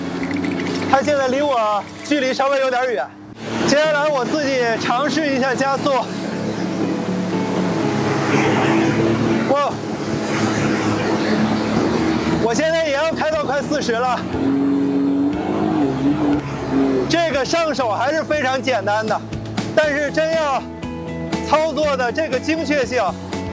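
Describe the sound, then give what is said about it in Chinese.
Jet ski engine speeding across water, a continuous loud motor drone running throughout under steady talk. “我自己驾驶这个摩托艇确实不敢开这么快啊。”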